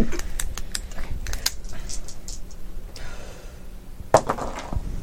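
Three dice rattle and tumble during a tabletop game: a quick run of sharp, light clicks in the first couple of seconds, then a quieter stretch before one louder clack near the end.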